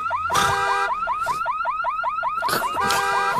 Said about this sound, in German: Als in der Nähe eine Alarmanlage losgeht, schaut er neugierig aus dem Fenster.